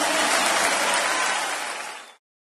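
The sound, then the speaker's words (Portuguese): A church audience applauds, a dense, even roar of clapping that slowly eases in loudness before stopping abruptly, followed by silence. “Aplauda o Senhor mais forte, queridos.”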